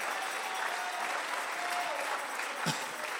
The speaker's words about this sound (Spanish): Si Dios ha hecho algo maravilloso, ¿por qué no le dan palmas al Señor?